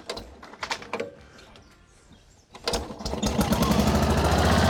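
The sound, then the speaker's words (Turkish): A rotavator engine is started: a few rattling bursts and a quieter pause come first, then the motor catches and settles into a loud, steady running drone that grows stronger toward the end. “Ben rotavatörle boğuşurken diğerleri işi hallediyor. Hadi bakalım çalışacak mı görelim.”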